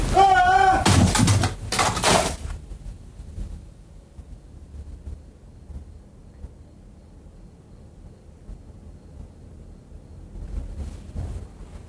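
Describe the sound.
A typewriter is hurled against a door, producing a burst of loud, harsh crashing impacts in the first couple of seconds. A long quiet stretch with only a faint low rumble follows.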